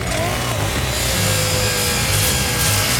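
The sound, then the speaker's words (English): A grinder cuts into the steel hatch of a tank that has been jacked off the ground, making a loud, steady, harsh rasping roar that runs without a break for the whole clip. “attacks the tank hatch with a grinder.”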